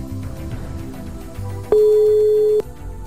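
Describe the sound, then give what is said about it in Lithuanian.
A telephone line ringing after a number is dialed: one steady mid-pitched tone holding for about a second, loud and alone above a faint background hum. “Renku Gabijos telefono numerį.”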